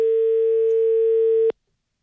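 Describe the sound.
Telephone dial tone during a phone call: a steady, loud, single-pitched hum lasting about a second and a half before cutting off abruptly into silence.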